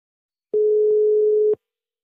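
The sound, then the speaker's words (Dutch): A telephone ringback tone sounds while a call is placed: one steady, mid-pitched, loud beep lasting about a second, with faint clicks at its start and end and silence on either side. “En we mochten even met hem bellen.”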